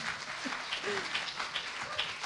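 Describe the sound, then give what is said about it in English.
Faint audience applause at a church gathering, a steady, dense patter of many hands clapping that continues evenly throughout. “Can you give her a round of applause?”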